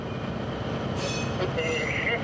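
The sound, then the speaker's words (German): A train is pushed backward out along the track by its locomotive while shunting, heading for the main line to Hamburg. A steady rolling rumble runs throughout, and a high wheel squeal joins in the second half. “muss den Zug dafür aber erstmal rausschieben”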